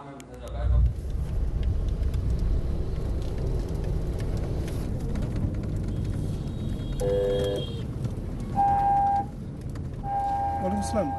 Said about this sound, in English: On the way to today's World Refugee Celebration at the world's largest refugee camp, Mohammed Kalam drives by the registered camp.